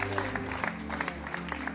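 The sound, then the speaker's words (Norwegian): A church audience applauds a multimedia show with a brisk patter of many hands, fairly loud and steady, while a sustained low tone hums beneath the clapping. “La oss gi en applaus for det spektakulære multimedieshowet.”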